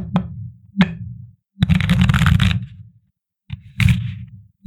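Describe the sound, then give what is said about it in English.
Tarot cards being shuffled and pulled: two sharp taps, then a long crackling riffle, a brief pause, and another shorter riffle of cards. “So we're gonna get into it today, but first, let's pull our tarot card.”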